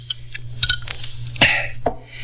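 Drinking glasses clink together in a toast: a few bright, short chinks spread unevenly over a couple of seconds, above a low, steady hum, with no voices.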